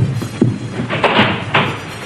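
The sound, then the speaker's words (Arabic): Knocking on a door: a few loud, hard raps at uneven intervals, each a short thud over a low background murmur. “وأين العباس؟ من من يطرق علينا الباب؟”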